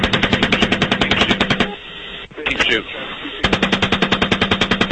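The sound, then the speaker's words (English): Automatic machine-gun fire during a military combat engagement, loud and rapid with an even rhythm, comes in two long bursts. Voices talk during the pause between them. “Keep shooting. Bushmaster 2-6. We need to move time now. All right, we just engaged all eight individuals. Now we got two birds. We're still firing.”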